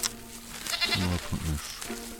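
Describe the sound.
A goat bleating, tied by rope: a few wavering, nasal bleats in quick succession, loud and clear.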